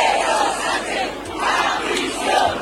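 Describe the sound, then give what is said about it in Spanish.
A protest crowd of about 50,000 people chants against the government at a mass demonstration in central Madrid. Massed voices roll in loud, broad swells that rise and ease repeatedly. “Como se escuchaba en los cánticos, por ejemplo, en esta, 50.000 personas en el centro de Madrid.”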